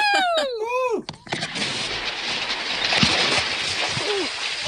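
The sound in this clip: A group of people do a cannonball jump off a dock into cold water. Voices sound briefly at the start, then a loud splash erupts into sustained churning, sloshing water.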